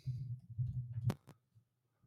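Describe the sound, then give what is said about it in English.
A computer mouse clicked to start a recording: two sharp clicks in quick succession after a low murmur, then near silence. “And I'll also hit the click button on recording.”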